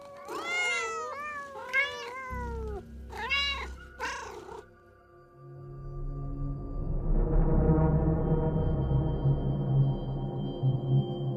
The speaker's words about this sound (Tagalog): Saan galing ang mga pusang yan?